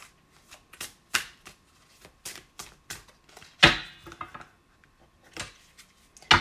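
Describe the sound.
A deck of about 52 tarot cards is being shuffled. Irregular sharp papery slaps and riffles come in many quick bursts, with one fuller riffle midway. No voices are heard.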